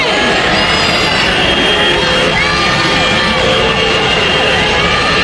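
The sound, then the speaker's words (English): A crowd of protesters roars outside the Tennessee state legislature after a new state voter map passed, a dense, loud, steady wash of shouting and cheering voices with whistle-like tones cutting through for the whole stretch. “That's the sound of a crowd of protesters outside the Tennessee state legislature after they passed a new state voter map.”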